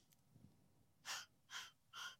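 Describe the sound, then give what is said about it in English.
Three short, sharp inhalations during a breathing exercise follow a faint, quiet opening. The breaths are evenly spaced about half a second apart and of similar loudness. “So again, you breathe in for one.”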